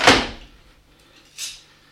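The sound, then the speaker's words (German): Heavy metallic clunks from an iron bar being seated in a door frame and clamped with two bolts: one loud, sharp strike at the start, then a softer knock about a second and a half later. “Hier diese Eisenschiene lagert in der Türfassung und muss mit den beiden Riegeln festgeklemmt werden.”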